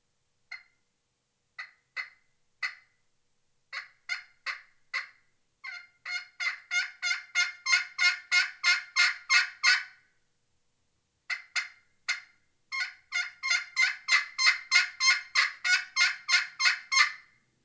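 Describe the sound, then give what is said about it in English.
Yelps of a Pollard's Elite aluminum pot turkey call played with a Diamondwood striker, starting as a few spaced clucks, then building into two fast, rhythmic runs of many raspy yelps that grow louder, alone and clear. “And then I also got a aluminum pot call, Pollard's Elite calls aluminum. I believe this is a Diamondwood Striker. Makes some good sounds.”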